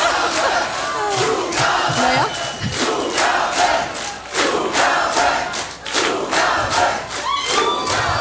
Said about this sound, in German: Oh, ich glaube, wir gehen noch mal raus. Sie wollen noch eine Zugabe.